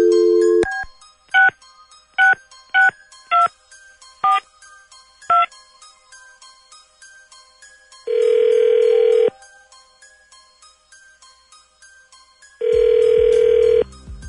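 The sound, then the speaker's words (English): Telephone keypad tones as a number is dialed at random: a short opening tone, then about six separate beeps of varying pitch, followed by two long ringing tones several seconds apart, with no voices. “Hang on a second. Dialing at random.”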